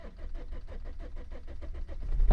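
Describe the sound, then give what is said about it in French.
A car engine pulls hard at full throttle in fifth gear with a clacking noise, a fairly faint, rapid, regular pulsing drone that swells slightly at the end. “Oh là! Il y a des bruits fous! Il faisait pas du bien ce claquement là! Donc là, elle vient en cinquième, gaz en grand!”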